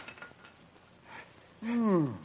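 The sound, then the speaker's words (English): A cup that looks like glass dropped onto tiles: one sudden clattering impact after a few faint sounds, followed by a ringing tone that slides downward in pitch. “You will observe it is of glass. To all appearances, the same as your pots. Very well. Proceed. I will drop it on the tiles. Thusly.”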